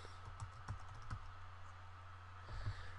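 Typing on a computer keyboard: a few quiet key clicks tap out in an uneven rhythm, with a short pause before a final small cluster of presses, all over a steady low hum.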